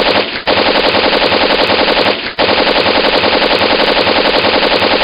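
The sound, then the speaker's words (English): Rapid machine-gun fire from weapons with limitless ammunition, a loud, dense, unbroken rattle of shots interrupted by two brief pauses before resuming. “Now I'm going to kill all your generic henchmen with my weapons of limitless ammunition.”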